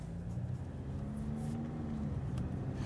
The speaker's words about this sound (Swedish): Då tycker jag vi åker. Ja, nu kör vi.